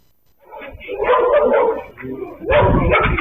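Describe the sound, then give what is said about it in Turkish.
Stray dogs roaming in a pack in Sarıyer bark: a loud, dense stretch of overlapping barks and yips that runs continuously and swells again toward the end. “Sarıyer'de sürü halinde dolaşan başıboş köpekler tehlike saçıyor.”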